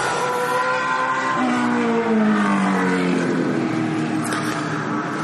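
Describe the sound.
Race cars revving at the start of a race, a continuous loud engine roar with layered harmonic tones that shift in pitch as the engines rev, with no voices.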